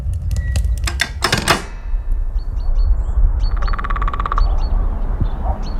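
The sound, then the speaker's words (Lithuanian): A woodpecker taps in a few rapid bursts of sharp knocks early on, the strikes coming in fast typewriter-like trains, followed by high chirping bird calls over a quiet background. “Mata, genys. Jo, šia mūsų draugėlis.”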